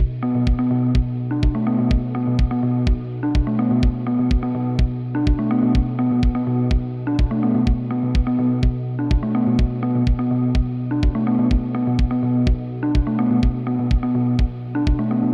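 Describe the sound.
Instrumental bumper music for a radio show: a steady driving beat of crisp percussive hits over sustained low synth notes, loud and unbroken, with no voices.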